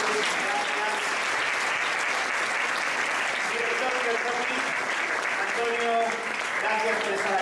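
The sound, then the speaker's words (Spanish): Audience applause for a panel of experts at a live event: sustained, steady clapping throughout, with some voices audible alongside it. “Un fuertísimo aplauso para este maravilloso panel de expertos.”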